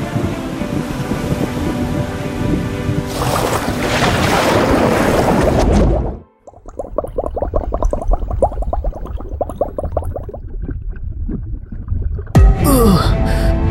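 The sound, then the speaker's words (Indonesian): Big ocean waves surge with a loud, continuous rush of churning water. The roar drops away sharply near the middle, then returns as bubbling, turbulent water before a final loud wash. “Tetapi, tiba-tiba saja gelombang besar muncul. Awan menjadi gelap.”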